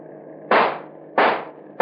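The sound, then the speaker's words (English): Pistol shots fired at a car's tire during a chase: two sharp, loud bangs with short decaying tails, and a third just beginning at the end, over a steady low background hum. “I'm going to take a tire off that hack. Hold it steady now.”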